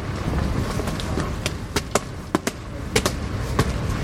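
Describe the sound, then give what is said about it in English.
Footsteps going up steps, several sharp, distinct thuds at an uneven walking pace over a steady background hiss. “And we're about to go up some steps. Prepare for authentic step noises.”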